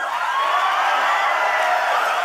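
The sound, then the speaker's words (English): A crowd at the Values Voter Summit, a political gathering in D.C., bursts into sustained applause and cheering with whoops, forming a loud, even, unbroken roar of clapping and voices. “The applause and whoops of joy continued for a full 30 seconds.”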